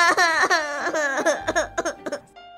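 A young child crying, starting with high, wavering wails that give way to a rapid string of short, breathy sobs. The outburst is fairly faint and heard without speech.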